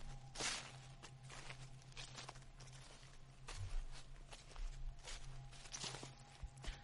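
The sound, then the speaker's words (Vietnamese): Footsteps crunching over dry leaves in a banana garden at night, a faint run of many irregular rustling, crackling steps with no talk. “Đúng lúc ở ngoài vườn chuối lại có tiếng chân người dẫm lên lá khô sần soạt.”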